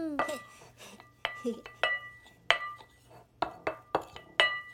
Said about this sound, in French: Maintenant, il faut tout mélanger avec la cuillère. OK, je m'en occupe.